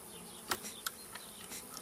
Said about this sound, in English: In these chestnut tree trunks, thousands of workers live around their queen. A cluster of busy bees.